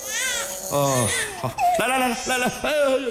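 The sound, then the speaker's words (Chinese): A hungry baby cries in several wavering, tonal wails broken by short breaths, loud and strained, with the bursts coming one after another. “这咋还哭？咋的？哭了？哦，饿了这？”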